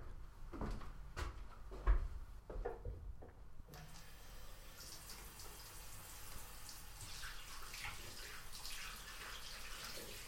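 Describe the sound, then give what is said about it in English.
Hands washed under a running tap before a treatment procedure: a few faint knocks and clicks, then a soft, steady rush of flowing water that continues to the end. “I will wash my hands now and then perform the procedure.”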